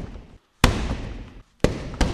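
Taekwondo kicks from a former top competitor who now runs a school. Three sharp, loud impacts snap out of near silence, the last two coming in quick succession.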